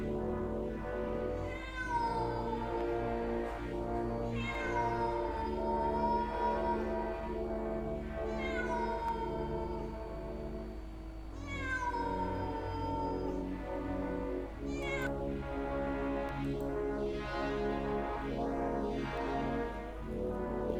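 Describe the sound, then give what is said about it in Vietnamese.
A cat meows several times, each call long, wavering and drawn out with a rising and falling pitch, spaced a few seconds apart over a constant low droning background. “Rồi có tiếng một con mèo kêu lên.”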